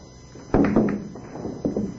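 A pool cue shot strikes billiard balls, giving a sharp knock followed by a few quick clacks, then another short pair of knocks about a second later, with no talk over it.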